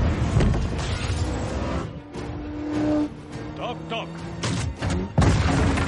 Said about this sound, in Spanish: El vehículo golpea una cisterna de combustible. Se produce una explosión.